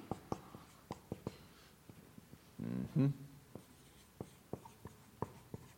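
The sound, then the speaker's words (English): Writing on a board during a talk: faint, sharp taps and short scratchy strokes repeat in an irregular rhythm, quiet throughout. “I'm going to write some things up here on the board.”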